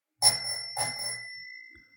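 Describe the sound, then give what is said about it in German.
A bell rings twice in quick succession, two bright metallic strikes whose high, pure tones ring on and slowly fade over about a second and a half. “Lass mal das Klingeln ertönen”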